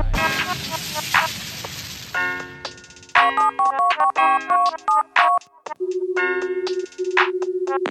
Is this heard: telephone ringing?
yes